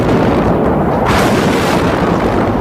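An artillery shell explodes in a city street under siege, falling about 30 metres away in front of a national bank: a loud, dense, rumbling roar fills the whole span, briefly growing brighter and harsher partway through.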